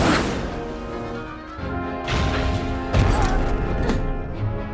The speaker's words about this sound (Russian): Астероид попадает в окно. Стекло трескается.